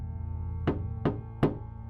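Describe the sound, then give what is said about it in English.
Three sharp, evenly spaced knocks on a door as someone keeps knocking, each a loud distinct rap over a steady low tonal drone. “A-kun and I tried not to pay much attention, but he wouldn't stop knocking. Why won't you open up?”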